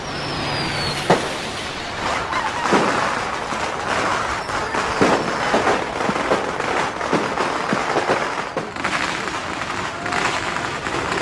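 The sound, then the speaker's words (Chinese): A long string of firecrackers goes off at a wedding as a dense, continuous run of many sharp cracks and pops over a broad noisy crackle. It is fairly loud throughout, with no talk. “今天是这对年轻人大喜的日子，伴随着热热闹闹、绵延不断的鞭炮声”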